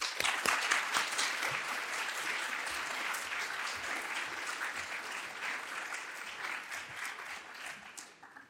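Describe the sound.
Audience applause welcoming a physics lecturer at a college. The clapping is steady and sustained for several seconds, then thins out and fades at the end.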